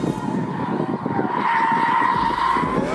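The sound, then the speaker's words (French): A heavy Japanese car drifts with its electronic driver aids switched off. Tires squeal in a sustained, wavering whine over a loud, continuous engine roar that lasts the whole three seconds. “Mais quand les assistances électroniques sont débranchées, la lourde japonaise devient jolie ballerine, tout en drift.”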